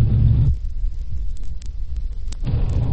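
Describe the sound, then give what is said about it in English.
Engine rumble and road noise from a police car rounding a corner and pulling up: a steady low rumble, heavier at the start and end, with a few faint clicks in between. “Unit is just coming around the corner. Pulled up in front of the address.”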